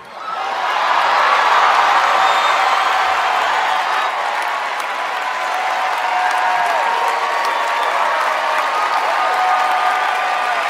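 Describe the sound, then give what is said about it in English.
The Tony Awards audience gives a standing ovation: dense, sustained applause from a large crowd that swells quickly and stays loud and even throughout. “It's a rapturous standing ovation from these wealthy theater-going clowns.”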